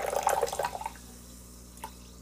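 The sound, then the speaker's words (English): A drink is poured from high above the glass out of a small San Pellegrino bottle. A brief splashing gush lasts under a second and trails off, followed by one faint drip. “High pour.”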